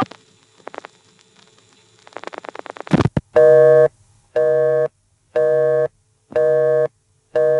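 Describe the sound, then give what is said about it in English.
Loud telephone busy signal after dialing one's own number on an old rotary-dial exchange: crackling clicks and faint pulsing on the line, then four evenly spaced tone bursts and the start of a fifth. “This busy signal was shockingly loud. I've turned it down.”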